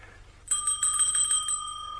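A small hand bell is rung to summon a servant. It gives a quick run of bright, high metallic strikes that ring on and slowly fade, with low hum underneath.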